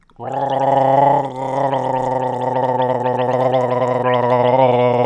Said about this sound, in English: or if you're gargling,